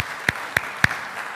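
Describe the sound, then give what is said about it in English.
Sharp handclaps from a church audience reacting to a service announcement: a few crisp, evenly spaced claps, each a short isolated snap. “Yeah, we can clap for that.”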